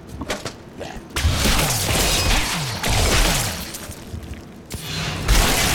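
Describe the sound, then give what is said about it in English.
Shield bash in a video game knocking out a group of about eight enemies: loud, dense crashing and heavy thuds that pile into a continuous roar of impacts, then a few sharper hits near the end. “Oh, wow. One shield bash took out like 8 guys.”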